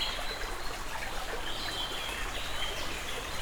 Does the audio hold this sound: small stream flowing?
yes